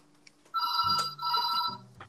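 A telephone rings in two short electronic bursts in close succession. The bright ring is fairly loud over a low hum, with no talk.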